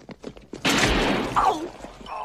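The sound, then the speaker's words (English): A soldier fires a gunshot at a fleeing man: one loud, sharp blast with a long, noisy, crackling tail that slowly dies away. “one of the soldiers fires at him”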